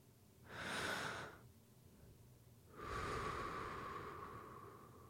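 Deep, slow breathing during a guided relaxation to a dance: a shorter airy breath, a pause, then a longer breath that slowly fades. It is soft and close, with no talk.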